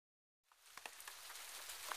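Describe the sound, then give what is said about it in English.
Faint rain falling starts after a moment of silence and becomes a steady hiss of patter, with a few sharper drop ticks at the start. “Oh no! It's raining!”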